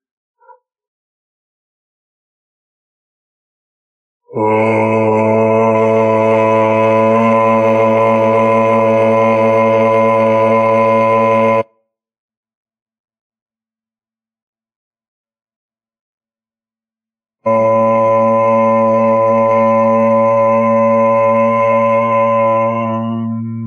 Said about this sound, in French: On va terminer la séance en chantant trois ohms.